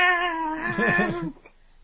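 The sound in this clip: A human voice imitates a cat meowing, producing one drawn-out, wavering, nasal meow of moderate loudness that wobbles in pitch before cutting off into near silence.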